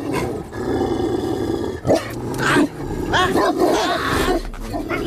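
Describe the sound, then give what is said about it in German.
Dogs barking and growling in a dense, continuous, overlapping din, with loud bursts and snarls that rise out of a rough, roaring background throughout. “Ich belle. Meine Hunde kommen.”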